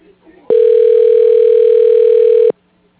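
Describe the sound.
A steady electronic telephone tone on a call being placed to voicemail, one loud, even beep that holds a single pitch for about two seconds and then cuts off abruptly.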